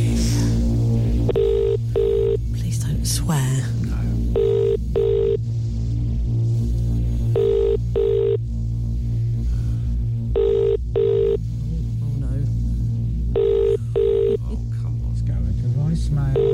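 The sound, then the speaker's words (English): Telephone ringback tone on an outgoing call: five evenly spaced double rings with pauses between, while people talk over it. “All right, let's dial the number.”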